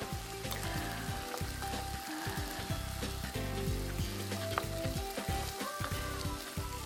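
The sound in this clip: Grains being stirred in hot oil in a pan for a pilaf-style dish give a loud, steady crackling sizzle that runs unbroken through the whole clip, dense and even, with no voices.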